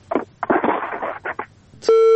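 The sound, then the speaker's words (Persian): A telephone busy tone after a call disconnects: one steady, even-pitched electronic tone, loud, cutting in for the final half second after a short stretch of garbled, voice-like sounds. “بالاخره تماس قطع شد یک تماس دیگه میگیریم”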